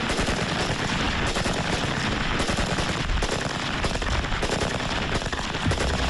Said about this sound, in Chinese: 这把崭新的五六式冲锋枪已在库房里沉睡了50多年，从未被使用过。这一天，武器测试人员会把它和五六式半自动步枪做个比较。